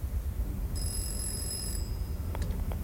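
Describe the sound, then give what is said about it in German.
A telephone rings in a railway crossing keeper's house: one high, steady ring lasting about a second over low background rumble, followed by a few faint clicks. “Er ist beschäftigt, es klingelt gerade, er nimmt den Hörer ab.”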